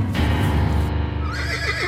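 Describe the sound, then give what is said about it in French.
A horse neighs loudly as it thrashes about, a long, shrill whinny whose pitch trembles and wavers toward the end. “le fils tombe d'un cheval qui s'agite en tous sens et se casse une jambe.”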